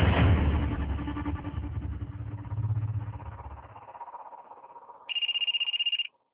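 A telephone rings with one short, loud electronic trill near the end. Before it, several seconds of rumbling, engine-like noise fade away.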